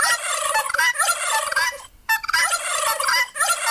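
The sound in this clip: Turkeys gobble in loud, rapid, rattling bursts, with a brief pause midway before the warbling calls resume and carry on to the end.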